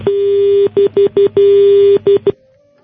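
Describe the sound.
Telephone tones sound after a caller's line is disconnected: a loud, steady single-pitch tone broken into a long note, several short beeps, another long note and a few more quick beeps, heard alone before the line goes quiet.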